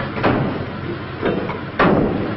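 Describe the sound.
The back doors of a crematorium van are shut, producing three dull thumps spaced unevenly, the last one loudest, over a steady background hiss.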